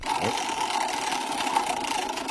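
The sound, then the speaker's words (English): A prize wheel spinning, its clicker producing a dense, rapid, steady ticking that runs loud and unbroken throughout, with no voices over it. “Spin the wheel”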